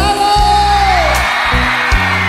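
A live concert crowd shouts and whoops together, a loud sustained roar with a few sharper yells rising out of it.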